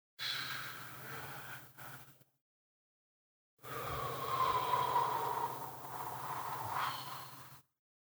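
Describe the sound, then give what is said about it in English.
Deep breathing during a mindfulness relaxation exercise: a shorter breath of about two seconds, a brief silence, then a longer, steady breath of roughly four seconds that swells slightly in the middle. Soft, airy and close, with no talking. “fill your lungs with as much air as possible. Then exhale all your air over a count of four and blow all the tension that you can out of your body.”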